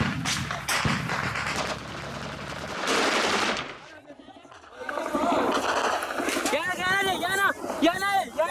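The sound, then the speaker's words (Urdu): Rapid bursts of gunfire as attackers shoot at barracks from behind a building and a fence. Dense, crackling volleys fill the first few seconds, then voices talk and shout over further scattered shots. “حملہ آور ایک عمارت اور باڑ کے پیچھے سے بیرکوں پر firing کرتے ہیں۔ یہ فائرنگ کا سلسلہ غروب آفتاب تک جاری رہتا ہے”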